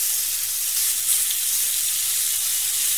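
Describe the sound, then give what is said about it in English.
Sourdough bread toasts in a pan with a continuous sizzling hiss of frying, steady and even in level throughout. “sourdough bread that we've just toasted up and softened up slightly. So we'll so that's probably all I'd say for that side. So it's about a minute. Yeah. We'll flip it over.”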